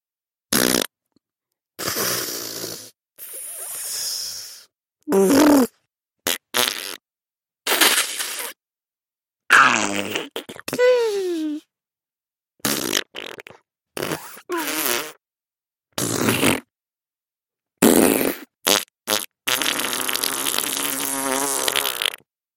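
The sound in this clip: Many fart sounds in quick succession: short and drawn-out bursts of varied pitch and texture, some buzzing or wavering up and down, separated by brief silences and ending with a long raspy one.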